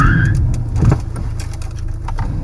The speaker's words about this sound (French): La voiture pile soudainement.